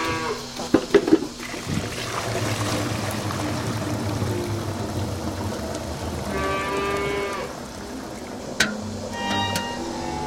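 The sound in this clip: Cattle lowing on a dairy farm: a long, drawn-out moo rises over steady farm background noise, with a few sharp knocks and clatters near the start and a single sharp tap later.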